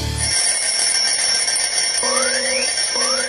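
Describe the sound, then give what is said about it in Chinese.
An alarm clock rings with a bright, sustained high tone. Two rising chirping sweeps join in the second half, with no talk. “关上了闹钟，我伸一个懒腰”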